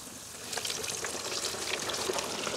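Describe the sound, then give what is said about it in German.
A breaded, pre-seasoned Franconian carp deep-fries in hot oil with a dense, crackling sizzle. The steady hiss grows slightly busier after the first half second and carries on evenly without talk. “Ich werde jetzt live für euch diesen leckeren fränkischen Eischgründer Karpfen frittieren. So, der muss gut paniert werden. Der wurde vorher schon gewürzt. Genau, jetzt kommt er hier rein.”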